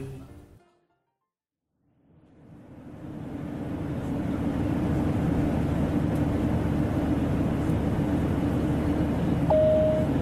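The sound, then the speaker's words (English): Steady airplane cabin drone on approach to Gatwick Airport. It fades up from silence over a couple of seconds, then holds a constant, full, low rumble. “Ladies and gentlemen, we're just approaching Gatwick Airport. We'll begin our descent shortly, upon which we will illuminate the seatbelt sign.”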